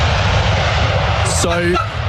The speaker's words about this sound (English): So the wheels have touched down, and I thought, this is an historic moment.